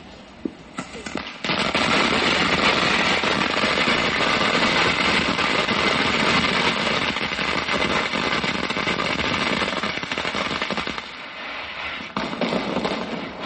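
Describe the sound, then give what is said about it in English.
A mat of firecrackers goes off. A couple of isolated pops lead into a loud, dense, continuous crackle of many rapid small bangs that runs unbroken for about twelve seconds, then thins near the end. “MATTE, a MAT of firecrackers. Here they go again. There's the whole MAT.”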